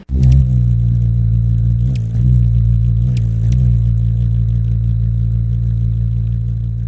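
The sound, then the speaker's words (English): Steady, loud low drone of ruby-throated hummingbird wings during migration season in Indiana, rich in buzzing harmonics, with a few brief high ticks over the hum. “We are in peak hummingbird migration season in Indiana and other Midwestern states, and that's the sound of the ruby-throated hummingbird. Their wings flap up to 80 times a second.”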